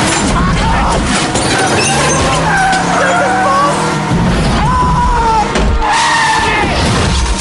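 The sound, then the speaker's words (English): A car skids and crashes, flipping into the air and landing on its roof. Loud, continuous tire squeals wail over a roaring rush of noise, broken by heavy crunching impacts. “The vehicle flies up into the air and crashes, landing on its roof.”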